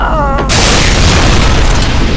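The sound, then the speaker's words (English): A room's walls explode into jagged shards with a sudden, very loud boom that cuts off a voice. A sustained, roaring rumble of breaking debris follows. “The room's walls exploded before her hands, tumbling away in jagged shards.”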